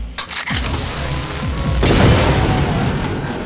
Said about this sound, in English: I pulled the particle beam pistol from my belt. Stand clear.